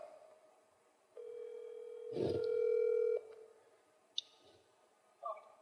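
A phone call rings out while waiting for pickup: a single steady, buzzy ringback tone lasting about two seconds over a quiet background, followed by a faint, brief click.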